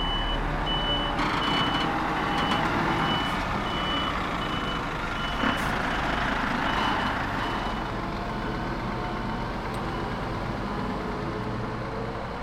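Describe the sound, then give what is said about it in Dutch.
A truck reverses with its backup alarm sounding: loud, steady, repeating high beeps over a continuous low engine rumble, as the vehicle backs up after climbing onto a curb. “Oh, nu weer en nu gaat hij naar achter. Hij gaat achteruit rijden, jongens.”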